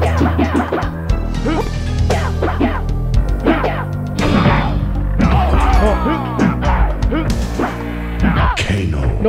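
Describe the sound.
Many rapid thuds and whacks of punches land in the fighting video game Mortal Kombat Trilogy, over busy game music and effects.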